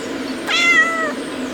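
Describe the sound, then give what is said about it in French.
A single cat meows on a balcony: one clear, harmonic, slightly wavering cry lasting about half a second over a steady low background hum. “Bah alors, le chat, qu'est-ce que tu fais? Le chat se balade sur le balcon”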